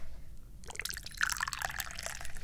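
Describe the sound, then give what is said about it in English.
Tea is poured into a cup, a light splashing trickle that starts after a brief quiet moment and runs steadily to the end. “Where's my damn tea? Let's pour some tea.”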